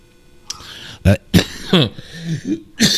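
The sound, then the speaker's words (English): Coughing after something has gone down the wrong pipe: several harsh, uneven bursts with rough throat-clearing between them. The bursts come in an irregular, choking rhythm and are fairly loud against quiet background hiss. “excuse me, I suck some down the wrong pipe there”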